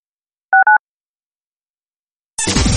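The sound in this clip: A telephone number is dialed: two quick keypad tones sound clearly on their own, then after a pause a loud burst of different sound cuts in.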